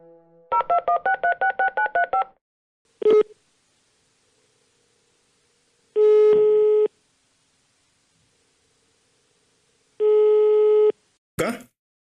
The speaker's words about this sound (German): Versuchen wir gleich mal, ihn zu erreichen. Der Anruf.